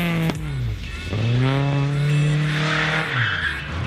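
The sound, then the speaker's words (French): An Opel Manta driven fast, its engine roaring loudly. The engine pitch drops and climbs again between gear changes, with tire squeal joining in toward the end. “Par contre, au niveau vitesse de pointe, c'était pas la force de l'Opel Manta.”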